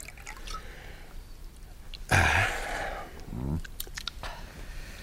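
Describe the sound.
A drink is poured into a glass: a short splashing pour with a gurgling glug partway through, over a quiet background.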